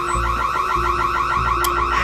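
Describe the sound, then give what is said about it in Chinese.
A gas leak detector alarm sounds after a stove was left burning, a loud, continuous electronic warble of rapid, repeating up-and-down pitch sweeps over a low rumble, with no voices. “这是那个煤气监测报警。”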